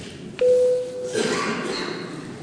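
A parliament's electronic voting-mode signal: a single steady mid-pitched beep lasting under a second, followed by faint background murmur in the chamber.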